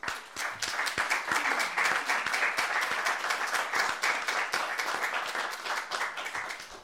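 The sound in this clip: Audience applause welcomes a speaker at a library event: dense, steady clapping from many hands fills the whole stretch, easing off slightly at the end.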